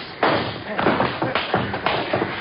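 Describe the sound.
Punches land in a radio drama fistfight as one man knocks another out cold. Many dull, heavy thuds come in a quick, uneven run, each one loud and full-bodied.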